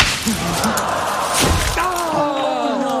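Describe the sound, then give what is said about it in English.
A golf ball strikes a bird's nest in a tree in a golf video game, giving a single dull thud amid a talking voice. “He hit a nest that time.”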